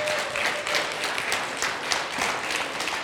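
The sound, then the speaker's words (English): Steady applause for a group of costumed children after their participation, a dense, even patter of many hands clapping throughout, without a break or obvious voices. “let's give all these children a good round of applause for all their participation”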